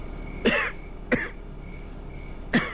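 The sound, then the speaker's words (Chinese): A man coughs three times, each cough sharp and short, and they are spaced unevenly with quiet between them. The coughs come over a faint, steady background hum. “您这咳嗽越来越厉害了，您可要保重身体啊。”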